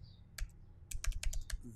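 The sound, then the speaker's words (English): Typing on a computer keyboard, heard as faint, crisp clicks: a single keystroke, then a quick run of many keystrokes in an uneven rhythm over a quiet background. “Here, I'm going to type it in here”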